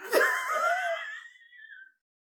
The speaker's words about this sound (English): Why do I wheeze like an old man? It's because I inhaled coffee.